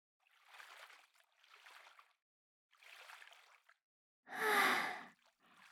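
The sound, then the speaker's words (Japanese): Hot water poured over someone's head in short, soft splashing bursts, a few gentle pours followed by one louder, fuller gush, all fairly quiet. “じゃあさっきと同じ要領で頭からお湯をかけ流していくからね。”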